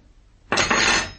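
A knife being put down makes a single loud metallic clatter that starts abruptly after near silence and rings on for about half a second before fading.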